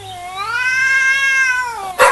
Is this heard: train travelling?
no